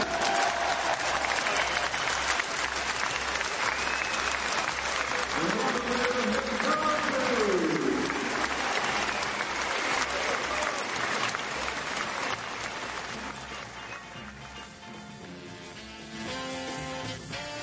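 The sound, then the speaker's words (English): A football stadium crowd applauds a team captain with sustained clapping and cheering that fills the whole stretch. The applause eases off somewhat toward the end. “Please show your appreciation and make some noise for Robin the captain.”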